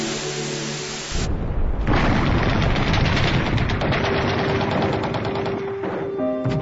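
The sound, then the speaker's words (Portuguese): Real war footage of bombs exploding and missiles being launched: after a quieter opening, a loud, dense roar of rapid gunfire-like bursts and blasts takes over and continues to the end, with a steady tone emerging in the later part. “O canal televisivo mostra bombas explodindo, mísseis sendo lançados e centenas de corpos pelo chão. Não se trata de um filme, são cenas reais e atuais.”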